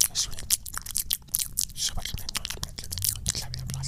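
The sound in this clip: A voice imitates an animal sniffing around with close-up ASMR-style mouth noises: many quick wet clicks, smacks and breathy puffs in an irregular, quiet rhythm.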